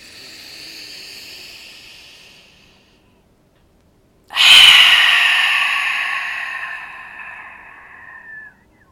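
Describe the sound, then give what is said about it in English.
One deep grounding breath during a guided breathing practice: a soft, airy inhale, a pause of silence, then a loud, long rushing exhale that slowly fades away. “Just a grounding breath. Let's do two more. One more time.”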